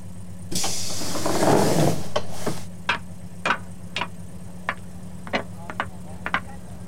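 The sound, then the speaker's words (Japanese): Automatic doors open at a stop: a loud, sustained pneumatic hiss lasts under two seconds, then many sharp clicks and ticks follow over a steady low hum. “ドアが開きます。”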